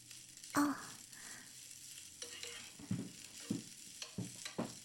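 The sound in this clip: Food frying in a pan during home cooking: a faint steady sizzle broken by a few sharp clatters and scrapes of stirring, with no talk.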